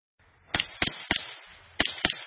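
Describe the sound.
Gunshots from MP5 and AR-15 rifles at a shooting range ring out as five sharp, loud cracks. Three come in quick succession, then a short pause, then two more close together.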